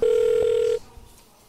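A telephone ringback tone sounds as a call is placed: one steady, low, buzzing ring lasting under a second, then it cuts off into near quiet.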